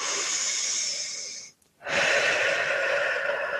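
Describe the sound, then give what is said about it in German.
Deep, slow breathing during a relaxation exercise: two long, airy breaths, each loud and breathy, separated by a brief silent pause. “dann atme mal ein paar Mal tief ein”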